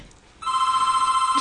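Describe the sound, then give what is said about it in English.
A telephone rings with an incoming call to a radio call-in show. It starts after a short quiet moment as a loud, steady, warbling electronic ring that holds without a break. “Oh, here we go. Well, we got a call. We'll see what's happening with the caller.”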